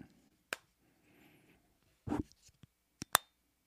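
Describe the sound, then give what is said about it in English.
The flip-out back screen of an Insta360 camera snaps shut with a few crisp plastic clicks. Soft handling rustle and a duller knock come in between, against an otherwise quiet background. “It's a nice satisfying click when the back screen closes.”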